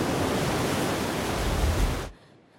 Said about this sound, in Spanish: Varios metros bajo sus pies, las olas rompen contra las escarpadas rocas.